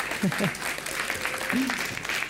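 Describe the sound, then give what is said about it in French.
Audience applause for a host at an evening event, a steady mass of clapping with a few voices calling out briefly over it. “On peut peut-être applaudir Catherine.”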